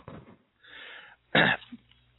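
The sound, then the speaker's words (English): A person coughs and clears their throat in a few rough, raspy bursts, one short cough sharper and louder than the rest, with no speech around them. “why don't you go ahead since I seem to be coughing?”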